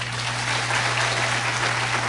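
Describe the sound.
An audience applauds to welcome Dr. Walter Martin at a talk on cultism, a dense and steady clatter of many hands that runs throughout over a low, constant hum.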